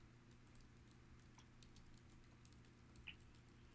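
Faint, irregular clicking of typing on a computer keyboard over a steady low hum, with one slightly sharper click near the end.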